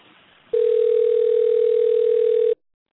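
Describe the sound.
Ringback tone of an unanswered phone call: a single steady, mid-pitched electronic tone holds loud and unchanging for about two seconds, then cuts off abruptly into silence.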